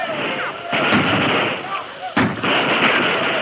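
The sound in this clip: Rapid rifle fire from long-range repeating rifles as troopers defend a fort against a night attack. The volleys form a loud, dense, continuous crackle with a few sharper bursts, and no voices are heard.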